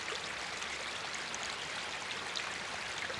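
A mountain stream flows in a steady, soft rush of water, an even gurgling wash that neither swells nor fades.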